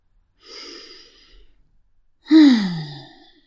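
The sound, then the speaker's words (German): A deep breath taken during a guided relaxation exercise: a soft, airy inhale is followed after a pause by a louder, sighing exhale that carries a faint voiced tone sliding downward as it trails off. “Und nimm erstmal einen ganz, ganz tiefen Atemzug.”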